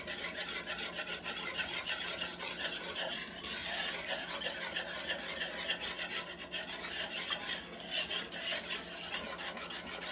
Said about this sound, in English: So I'm just stirring with a wire whisk. And I'm going to start adding my white sugar, the 100 grams. So I'm just holding the plate and I'm letting some drop while I'm stirring.